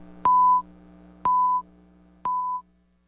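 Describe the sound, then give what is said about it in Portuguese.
Network cue tone telling radio stations to leave a shared network: three evenly spaced, mid-pitched beeps, each about a third of a second, sound about a second apart over a faint low hum. “Atenção, emissoras. Após o toque de 5 segundos, estará desfeita a rede.”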